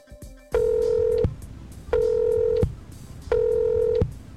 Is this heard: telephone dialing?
yes